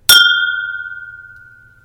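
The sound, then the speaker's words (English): Glasses clink once in a toast with Irish whiskey, giving a single bright strike with a clear ringing tone that fades slowly over nearly two seconds. “Let's toast to Irish whiskey. To Irish whiskey month.”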